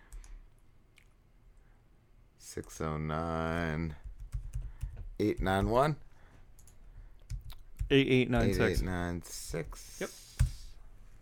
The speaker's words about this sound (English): I typed it, but it didn't go in.